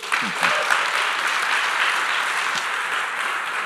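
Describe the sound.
Audience applause welcoming a guest speaker: a dense, steady wash of clapping that holds at an even, fairly loud level from start to finish, with no voices over it.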